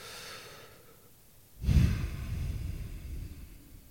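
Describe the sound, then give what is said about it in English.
A deep breath during a seated relaxation exercise: a soft, faint inhale through the mouth, then a louder, breathy exhale through the nose that swells suddenly and trails off slowly, with no talking. “I want you to take a deep breath through your mouth and then out your nose.”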